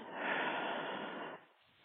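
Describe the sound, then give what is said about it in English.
A single deep breath: a loud, airy rush of air for over a second that drops off to a faint, softer breath at the end, heard on its own. “Deep breath in and let it out.”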